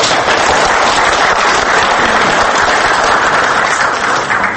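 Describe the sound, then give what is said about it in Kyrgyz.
An audience applauds student filmmakers whose film was made on their own money: loud, dense, crackling clapping that stays at a constant level throughout. “ушунун кинонун тартуунун өзү эрдик деп мына ушуларга кол чаба отурбуз.”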